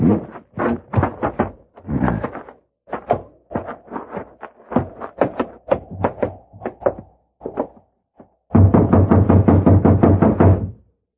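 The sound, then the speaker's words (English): Knocking on a locked door: many firm raps in uneven bursts with short pauses, ending in a long, rapid, louder run of knocks. “See if it's open. No, it's locked. You just have to keep knocking till he wakes up.”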